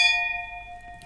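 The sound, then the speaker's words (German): Wine glasses clink once in a toast with Riesling, a bright, clear ringing tone that lingers and slowly fades over about a second. “Und ja, lass uns doch mal anstoßen an dem.”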